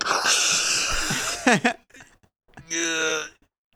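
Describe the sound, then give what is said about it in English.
A voice imitates a strained, tinny trumpet blast: a long breathy, wheezing push of air, then a short buzzing, nasal tone held for under a second. “And then so you see the trumpet player, like, strain, bring the trumpet up to their lips, and then they blow it out, this weird, gross, like, tinny sound.”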